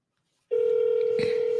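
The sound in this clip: A telephone rings back after a number is dialed: a short silence, then a steady electronic tone that holds unbroken to the end, with a brief noisy crackle near the close.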